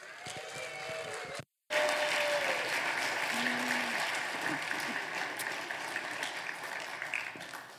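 A morning audience applauds a special guest's arrival with sustained, loud clapping that cuts out briefly near the start, then resumes and holds steady before easing slightly toward the end.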